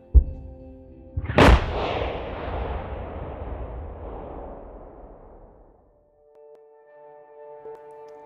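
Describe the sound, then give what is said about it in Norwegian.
A supernova explosion sound effect: a sharp initial hit, then a loud boom that spreads into a long, hissing, rumbling decay, fading away over several seconds before faint sustained tones. “Men ingenting varer evig. Til slutt eksploderer òg supernovaen og slenger massa ut i ei ny sky.”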